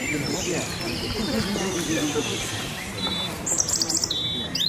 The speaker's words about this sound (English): we've probably got our most favourite bird here. Everybody knows this bird, yeah? Robin Redbreast, yeah, yeah.